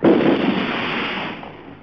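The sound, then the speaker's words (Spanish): A firing squad fires a rifle volley during an execution of strikers: one loud burst at the start, then a rumbling tail that fades away over under two seconds. “Canalejo, quien logró escapar, también fusiló a centenares de huelguistas rendidos e indefensos en los distintos operativos que el ejército llevó a cabo. ¡Apunten! ¡Así no se mata un criollo! ¡Fuego!”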